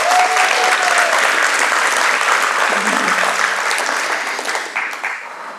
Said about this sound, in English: If you would, make Anna feel welcome. Put your hands together.